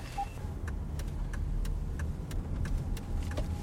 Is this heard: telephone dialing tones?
no